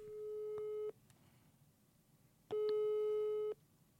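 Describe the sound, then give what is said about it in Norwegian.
Telephone busy signal heard after dialing out to reach someone: two long, steady, mid-pitched tones separated by a quiet gap, with faint line hiss beneath. “Jeg prøver å ringe Kalbakk, jeg.”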